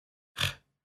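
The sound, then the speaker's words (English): A single brief, breathy scoffing noise pushed out from the back of the throat, rising quickly and fading within a fraction of a second, alone against silence. “So that noise, unfortunately, also sounds like something else, which sounds like I'm scoffing at someone”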